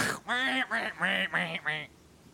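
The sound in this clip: Ducks quack in a video game: five quick, nasal, harmonic calls in a rapid series, fairly loud, followed by a brief quiet tail.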